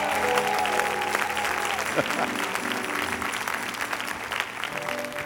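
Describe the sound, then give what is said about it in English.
Audience applause welcomes a guest, a steady, continuous burst of clapping from a crowd that lasts about five seconds, with faint sustained tones sounding over it. “Can you give them a big hand to welcome Savannah with us, please?”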